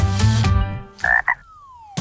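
A frog croaks, starting with a long, deep, buzzy croak and followed by two short, higher croaks. A thin tone then glides steadily downward in pitch. The sounds are loud and stand alone.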